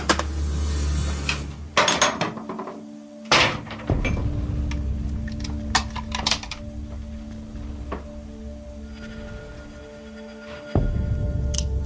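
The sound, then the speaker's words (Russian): A door being forced and broken, with several heavy thuds and sharp knocks mixed with clattering and rattling over a low hum, uneven in rhythm and loud, with no voices. “кто-то ломится в двери”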